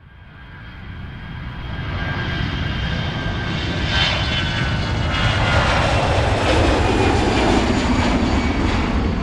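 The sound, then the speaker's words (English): An Air France heavy jet, Flight 356 from Paris, lands at Toronto in a landing that ends in a tail strike. Its engine roar builds from moderate to loud and stays steady, with whining tones above a broad rumble. “Air France heavy aircraft is landing in Toronto for Flight 356 from Paris when a failed landing results in a tail strike.”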